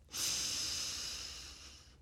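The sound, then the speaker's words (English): A single deep inhalation during a guided meditation: a steady, airy breath drawn in for nearly two seconds, heard alone without any talking. “I invite you to take one final breath in,”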